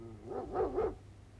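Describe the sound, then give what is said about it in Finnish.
A dog at a manor house gives a short burst of wavering, yelping barks with a rising and falling pitch. The barks are moderately loud and heard alone, with no talk. “Aja nyt toki koira pois.”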